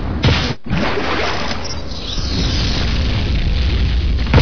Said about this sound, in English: Oh, but the bomber just skims too close to ground and takes itself out.